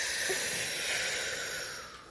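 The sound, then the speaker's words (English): A long breath blown out to cool an imaginary hot pizza during a breathing exercise: a steady, airy hiss that holds evenly and then fades gently at the end. “Oh, I want to eat it, but it's too hot, so I'm going to cool it off. Ready? Cool off the pizza.”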